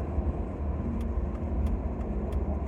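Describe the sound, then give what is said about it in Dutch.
A loud, low, steady rumble from a car with a very heavy exhaust on a road, droning without break under no talk. “maar het is een auto met een hele zware uitlaat of iets. Wat heel veel herrie maakt.”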